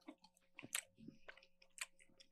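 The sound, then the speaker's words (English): Crunchy chewing of dried guava balls: a few sharp bites and squishy chews at an uneven rhythm, fairly faint over a low steady hum, with no talk. “So here we have dried guava balls. Yeah, I don't know what this is going to taste like, but we should try this one all first, right.”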